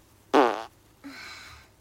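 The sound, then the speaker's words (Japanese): A person breaks wind indoors after hanging up laundry: a short, loud, buzzy burst followed a moment later by a longer, softer, raspier one, with no talk over them. “おならが出そうなので出していきたいと思います。出します。”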